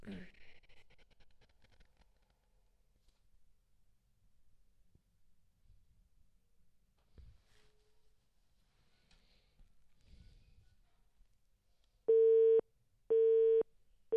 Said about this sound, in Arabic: هاتف مشغول، نعود الاتصال اللي سمحتي مرة أخرى عبد الرحيم.